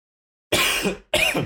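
Two harsh coughs from a tickle in the throat break out after a moment of silence, the first longer, the second short and abrupt.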